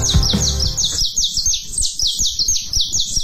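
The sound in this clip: A saffron finch (canário-da-terra) chirps on a radio program, giving a rapid series of many high, thin, repeated chirps in a steady rhythm.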